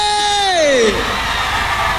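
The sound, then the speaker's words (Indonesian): A concert crowd at ITCC Penampang cheers, opening with a loud shouted whoop that slides downward in pitch, then settling into a sustained roar of many voices. “kita mau dengar dulu sorakan yang padu daripada penonton-penonton yang hadir di ITCC Penampang pada malam ini. Mana suaranya?”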